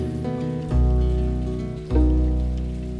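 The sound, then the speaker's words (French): Steady rain hisses beneath tonal music, with two deeper swells partway through. “il pleut”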